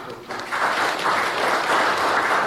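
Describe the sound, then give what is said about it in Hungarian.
A church audience applauds those who worked on renovating the pews and heating. The clapping starts quieter, then quickly builds into loud, steady applause that holds to the end. “Úgyhogy tapsoljuk meg azokat, akik fáradoztak ezen, meg önmagunkat is, hogy”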